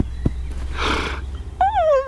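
A small red pony gives a breathy snort, then a brief wavering, high-pitched whinny, with a soft thump near the start.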